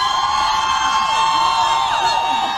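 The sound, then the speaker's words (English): A crowd cheers, whoops and yells in loud, continuous shouts in response to Chuck Schumer's threatening remarks naming two Supreme Court justices. “He was cheered for that threat on the safety of two justices by names”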